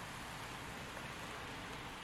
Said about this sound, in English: Besides, I don't mind the rain. I don't mind getting wet from it.